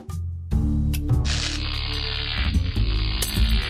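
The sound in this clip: Electrical hum from a live mains socket with faulty wiring: a steady, low buzzing drone with a faint crackle. It starts quieter, then jumps louder after about half a second and holds level, with no voices.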